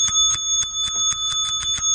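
Bell ringing, played as a sound effect: bright, tinny metallic rings repeat in a fast, steady rhythm throughout, alone with no voices.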